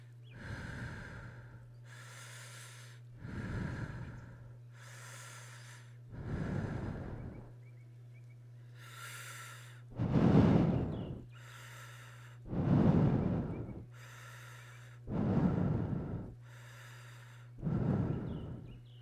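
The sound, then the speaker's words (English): Deep breathing, guided slow inhales and exhales in a steady, unhurried rhythm, with a series of breathy, even swells over a low constant hum and no talking. “So please, take some deep breaths with me.”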